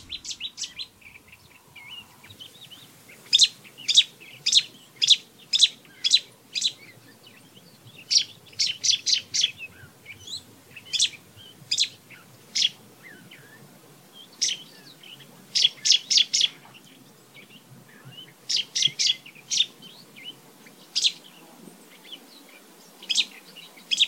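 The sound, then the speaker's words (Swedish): A songbird singing on Crete, Greece, in January, giving loud, bright, explosive bursts of rapid notes in separate phrases with short pauses between them, alone over a quiet background. “Vi hinner också lyssna lite grann på Sumpsättian som just nu alltså sjunger på Kreta i Grekland”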